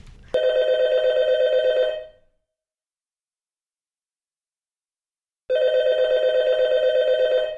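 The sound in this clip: A telephone rings twice, each ring a loud, roughly two-second warbling electronic trill, with a long stretch of silence between them.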